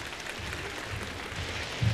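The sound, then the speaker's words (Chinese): Faint audience applause at a university show, greeting a traditional Chinese crosstalk act: a soft, continuous wash of many hands clapping that stays even and ends with a slightly louder flurry. “那么接下来梁鸿浩、杨凯为您奉献一段传统相声，掌声。”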